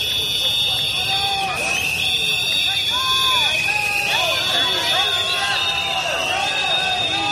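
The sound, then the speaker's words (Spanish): Crowd whistling and jeering at a political ceremony, an offering where the regional government is jeered: shrill whistles go on throughout over loud crowd babble and shouting voices. “Bueno, pues ese es el sonido de la pitada.”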